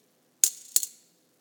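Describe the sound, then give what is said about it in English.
Two small coins drop one after the other, each giving a bright, sharp metallic clink with a short high ring that fades quickly. The two clinks are about a third of a second apart, with no talk. “two small coins, just like this, that would equal a penny.”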